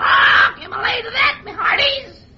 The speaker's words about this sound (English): I almost forgot our mascot here, Paul Parrot himself.